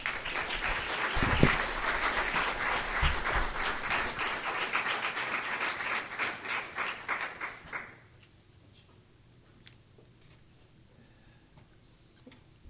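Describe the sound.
Congregation applause welcoming a pastor before a morning sermon, a quiet, even patter of many hands with a couple of low thumps early on, dying away after about eight seconds into near silence.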